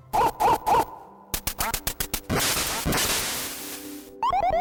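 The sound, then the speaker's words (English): Retro 8-bit sound effects from the Duck Hunt video game: three short quacks, then a rapid run of sharp hits, a noisy whoosh, and a bright chirpy electronic phrase at the end. “that super annoying Smug Dog in Duck Hunt.”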